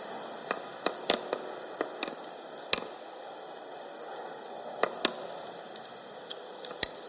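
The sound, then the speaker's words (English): Breath blown steadily into a tinder bundle holding an ember from a fire piston, a soft airy hiss dotted with many small, sharp crackles as the tinder catches. “We'll go ahead and put that into our tinder bottle. See if we can blow this into a flame.”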